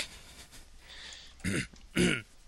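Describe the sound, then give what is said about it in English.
A man clears his throat: two short, rough bursts, the second a little louder, after a stretch of quiet. “Oh, a little tickle in my throat.”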